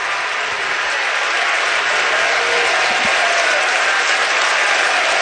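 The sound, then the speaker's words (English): Baseball fans cheer and make noise from the stands along the first-base and right-field line at a college championship series game. It is a steady, loud roar of crowd noise with no distinct breaks. “And now the Oklahoma fans, who are along the first base and right field line, are making noise, trying to encourage the freshman to make this a 1-2-3 inning.”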